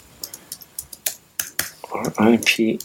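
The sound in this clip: Typing on a computer keyboard, a quick run of crisp key clicks followed by a voice speaking.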